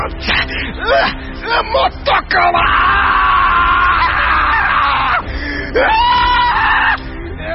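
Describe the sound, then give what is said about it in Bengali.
A man screams loudly, with a few short gasping outbursts followed by two long, strained cries separated by a brief pause. “চেঁচিয়ে উঠলেন নকুরবাবু”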